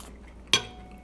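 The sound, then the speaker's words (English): A single short clink of knife and fork on a plate while cutting fake sausage, sounding once, bright and brief, with quiet around it. “We got our knives and the forks here.”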